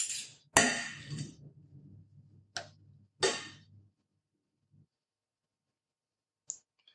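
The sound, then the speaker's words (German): About two teaspoons of butter go into heating milk with a few sharp clinks and knocks of a spoon against the pot, fairly faint and spread out with quiet gaps between them. “Jetzt nehme ich mal einen ganzen Teelöffel. Oh ja, sind eher zwei. Butter. Zack, hinein in die Milch.”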